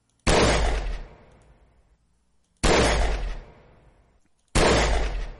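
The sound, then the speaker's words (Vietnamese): Gunfire in a surprise ambush inside a building on the way down to the second floor: three loud, sharp bangs, roughly two seconds apart, each ringing out in a long fading tail. “Tiếng súng vang lên liên tiếp.”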